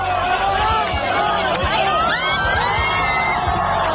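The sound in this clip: A concert crowd for Manolo García cheering and shouting, a continuous loud roar of many voices with whoops and high-pitched screams rising above it.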